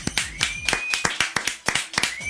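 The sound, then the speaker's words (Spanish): Hand clapping on a radio show: many sharp, loud claps in a rapid string at a slightly uneven rhythm. “Un aplauso, por favor.”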